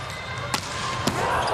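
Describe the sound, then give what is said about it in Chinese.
A volleyball serve and first pass in a Japan versus Croatia match: two sharp, crisp slaps of the ball about half a second apart over constant background noise. “好发球，一传也顶住了。”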